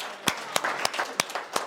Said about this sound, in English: Yeah, so let's all clap.